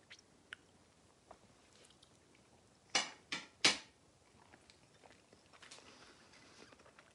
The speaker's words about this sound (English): Combination pizza. That's what it looks like. So here we go. 3, 2, 1, taste test.